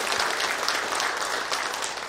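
A church audience applauds a newly installed deacon with a warm burst of dense, continuous clapping that stays fairly even and eases off slightly at the very end.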